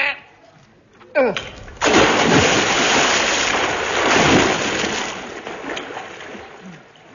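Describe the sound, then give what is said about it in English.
An object thrown into a river lands with a sudden splash, followed by a sustained rush of churning water that slowly fades. “help me throw this into the river to just to test it”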